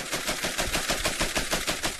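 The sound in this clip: Rapid automatic gunfire from troops massing near a border crisis zone, with many sharp shots in a fast, steady rhythm. The sound is loud and continuous throughout, with no talk.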